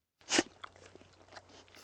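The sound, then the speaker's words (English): A dog chewing on a bone: one loud crunch, then several softer gnawing crunches, quiet and alone. “You like to chew on that, don't you, Sam?”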